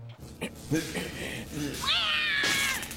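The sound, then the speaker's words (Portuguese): A cat trapped near electric wires meows in one drawn-out, high, wavering cry that rises then settles, following a stretch of muffled voices talking. “Eu podia tentar atirar-me e apanhar o gato, mas se ele se assustar e tocar num fio elétrico, vira gato no churrasco.”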